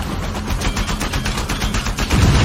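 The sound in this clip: Rapid gunfire from a video game, a dense run of many loud, crackling shots that blur into a continuous automatic burst with no pauses and no talk.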